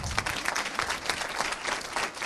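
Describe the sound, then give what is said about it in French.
A conference audience applauds its speaker with a dense, steady patter of many hands clapping at an even level from start to finish. “je pense qu'on peut applaudir notre conférencier.”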